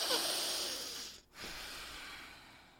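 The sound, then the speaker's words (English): A deep breath through the nose: a long, soft, airy inhale, a brief pause, then an equally long exhale, all faint and without talk. “let's take a deep breath in through our nose and then let it out through our nose, okay? Deep breath in.”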